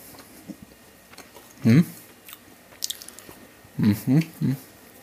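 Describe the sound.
Someone bites into a homemade biscuit and chews it, making one loud crunchy bite and then a few short crisp crunches, with quiet gaps between them.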